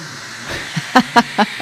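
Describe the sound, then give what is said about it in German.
A coffee machine hisses with a steady, bright rush of steam, broken near the end by a few rhythmic sputtering pulses that rise above the hiss. “Das war die Kaffeemaschine.”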